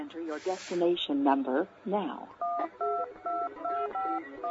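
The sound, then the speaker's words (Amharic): A telephone being redialed: a quick, even run of about eight DTMF keypad tones follows a brief stretch of voice, each beep short and clear. “ጋዜጠኛ ደምስ በለጠን በአየር ላይ አቅንጀው ነበር፣ አሁን ስልኩ ተቋርጧል። እስቲ እንደገና ልሞክር፣ ይቅርታ።”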